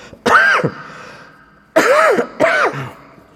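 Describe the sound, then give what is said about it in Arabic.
Coughing from someone during a religious lecture: three loud, voiced, rasping coughs with a throat-clearing edge, the first on its own and the last two close together, with no talk around them. “أنا عندي كحة.”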